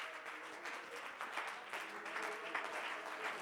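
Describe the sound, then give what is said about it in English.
Church audience clapping hands in praise: a dense, even wash of many hands applauding steadily throughout, fairly faint. “Can we just go ahead and give the Lord a hand clap of praise”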